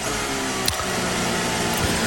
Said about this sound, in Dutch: Proefstarten. Toeren omhoog. Turbo laden, zoals dat heet.